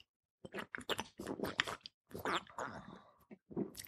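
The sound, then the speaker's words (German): A beer being drunk: a run of short, wet gulping and swallowing bursts separated by brief pauses, fairly loud and heard alone without talk. “denn jetzt muss ich erstmal ein Bierchen trinken. Moment.”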